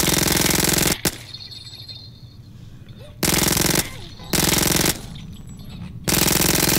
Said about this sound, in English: Sawn-off shotgun with micro SMG.